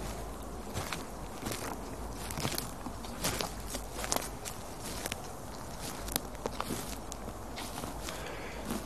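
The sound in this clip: Footsteps of someone walking: many soft, irregular crunching steps, faint and set against a constant background hiss.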